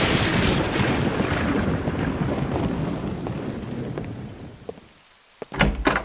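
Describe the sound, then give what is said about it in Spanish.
Steady heavy rain with a deep, rolling thunder rumble, loud and continuous at first, then easing off into quieter rain before a few sharp knocks near the end. “De seguro de estar intranquila con los truenos y la lluvia.”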